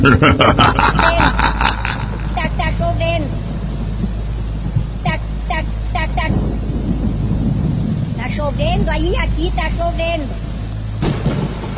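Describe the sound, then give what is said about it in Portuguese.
Steady rain with rumbling thunder forms a loud, continuous roar that runs through the whole passage, with voices and vocal snippets sounding over it. “Tá chovendo aí, aqui tá chovendo.”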